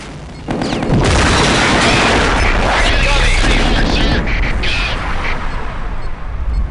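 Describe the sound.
Machine gun and missile fire in a combat video game: a dense, loud, sustained barrage of rapid shots and heavy booms that runs almost unbroken after a quieter opening half-second.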